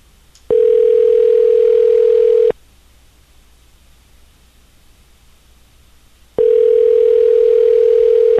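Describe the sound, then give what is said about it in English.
A telephone ringing as heard down the line: two long, steady buzzing tones of about two seconds each, separated by a quiet pause over faint line hiss. “Ringing.”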